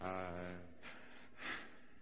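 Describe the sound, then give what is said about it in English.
A voice imitates heavy gasping of the kind made near a grief discharge: a brief voiced sound, then two sharp, airy gasps, fairly quiet. “If he is in the vicinity of a grief discharge, he will gasp rather heavily.”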